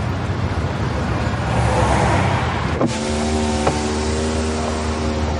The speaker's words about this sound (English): The police are driving away in front of him.